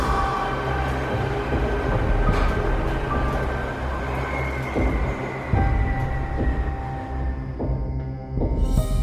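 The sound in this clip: A subway train runs with a steady, loud rumble and rattling rail noise throughout, broken by occasional sharper knocks and clanks.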